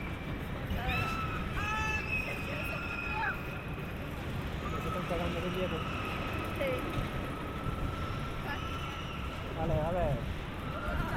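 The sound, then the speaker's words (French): A roller coaster clacks steadily as it climbs the lift hill. The mechanical noise holds at an even level throughout, and riders' voices and cries rise over it now and then. “On amorce la montée que vous avez entendue tout à l'heure. Les clac, clac, clac, clac, clac, c'est ça. Donc on commence à monter.”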